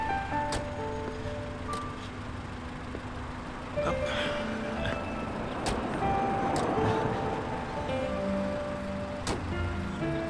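A car driving along a highway gives a steady, continuous low road roar with faint humming tones and a few brief clicks throughout, without voices.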